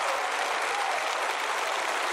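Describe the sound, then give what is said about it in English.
An audience at a church service claps hands in a dense, continuous burst of applause, steady and fairly loud from start to finish. “Come on, clap your hands, all you people.”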